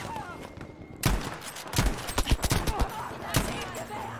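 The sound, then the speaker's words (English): Gunfire in a video game: after a short quiet start, a rapid volley of sharp, loud shots breaks out, with many irregular bursts cracking one after another to the end. “Oh, I got shot from behind.”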